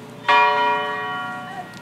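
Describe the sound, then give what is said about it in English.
A historic church bell rings out at an anniversary commemoration of a death: a single loud, bright strike with rich sustained overtones that hum and slowly fade over more than a second, heard alone. “it was the bell from Claiborne Temple that rang out 39 times, once for each year of King's life”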